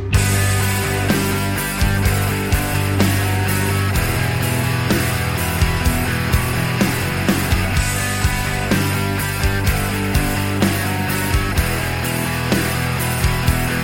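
A band plays together: drums keep a steady beat while the bass chugs on root notes and guitars move from a G chord to E minor, all at a full, even loudness.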